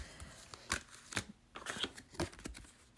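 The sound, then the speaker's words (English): Cards being drawn from an oracle deck: a few soft papery shuffles and crisp snaps of card stock, spaced irregularly and played alone without voices. “Okay, let's choose a card here.”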